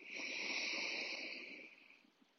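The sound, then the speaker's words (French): A long, steady inhalation during a guided breathing exercise, a soft airy hiss that holds evenly and then tapers off before the end. “Inspire. Et expire, ça fait 2. Inspire.”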